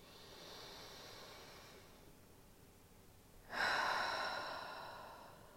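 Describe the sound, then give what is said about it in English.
A person takes a deep breath: a soft, airy inhale hisses for a couple of seconds, then after a short pause a louder, breathy exhale rushes out and slowly fades. “Let's go ahead and start off by taking a deep breath.”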